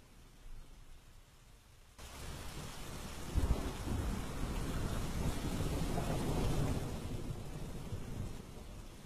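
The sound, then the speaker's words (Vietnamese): Rain falls and bubbles in a yard during a thunderstorm. After a quieter opening, it sets in abruptly as a loud, dense, steady hiss with low rumbling underneath, and it keeps up to the end. “ngắm cơn mưa đang sủi bong bóng ở ngoài sân. Đất trời vần vũ”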